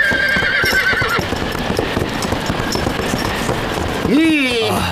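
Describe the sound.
A horse's hooves clop steadily at a horse farm amid a busy, noisy clamor, and near the end a loud whinny rises sharply and then trails off.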